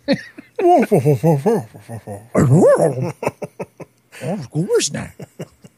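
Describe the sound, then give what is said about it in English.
A Great Dane barks in a string of deep, tonal barks and whiny yelps, coming in bursts while people talk over and between them. “Oh, that was a Great Dane.”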